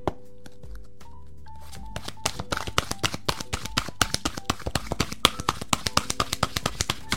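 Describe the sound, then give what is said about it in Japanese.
Oracle cards being shuffled and one drawn, heard as many sharp, crisp taps and snaps in a quick irregular rhythm that thickens after a quieter start with a soft tonal background. “はい、こちら、せーの、よいしょ。インベストインユアスピリットのカードが出てきました。”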